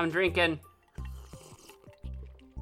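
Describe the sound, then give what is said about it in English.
Drinking sounds from someone sipping an unusual mixed drink: a short voiced sound comes first, then a few low, wet gulps and swallows, fairly faint and separated by brief pauses. “I'm drinking an interesting concoction.”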